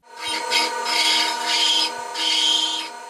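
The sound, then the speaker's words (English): A metal dental drill carving fossilized mammoth ivory: a steady high whine with strong harmonics, broken by four gritty grinding passes as the bit bites into the ivory. “That's the sound of a dental tool.”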